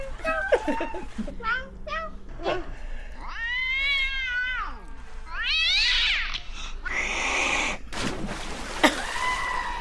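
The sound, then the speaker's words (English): Cats meow in several drawn-out, wavering calls with some whining caterwauls, rising and falling in pitch, while people talk in between and over them. “Oh, and the cats. I speak feline. Meow, meow, meow.”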